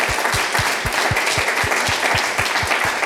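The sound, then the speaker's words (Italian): Crowd applause given as a tribute to a colleague, clapping loud and sustained in a steady, even rhythm throughout. “Allora, direi che facciamo un applauso per lui,”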